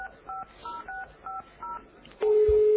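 Telephone keypad tones sound as someone dials a call: a series of short, evenly spaced beeps, then a loud, sustained steady tone.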